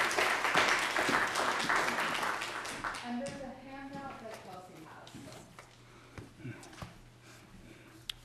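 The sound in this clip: An audience applauds to welcome a guest lecturer, dense clapping that is loudest at the start, then thins and fades into scattered claps.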